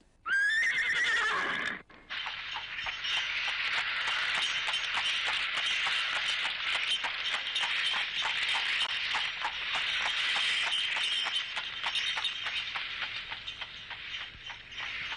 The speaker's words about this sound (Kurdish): دەی ئەسپە جوانەکەم ئامادە بە